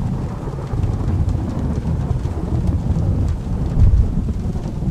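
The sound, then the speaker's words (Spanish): A thunderstorm with steady rain and deep rumbling thunder: a continuous low roar that swells into a louder rumble near the end, with no voices. “que no pasaba nada, que era solo la lluvia, el viento, los truenos y nada más.”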